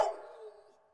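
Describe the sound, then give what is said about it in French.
A neighbourhood dog barking at night: one short, faint bark with a sharp onset that trails off over about a second. “Le chien, on va dire, du voisinage.”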